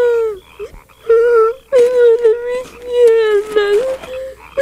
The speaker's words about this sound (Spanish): ¡Parece que se han roto las dos piernas! ¡Mis piernas! ¡Me duele mucho! Por favor, no llores, príncipe Mefiboset. Los príncipes no lloran.